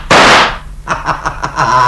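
A pistol gunshot: one loud, sharp burst that decays over about half a second, followed by quieter, irregular sounds.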